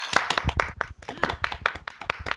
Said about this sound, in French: On l'applaudit, putain, on applaudit.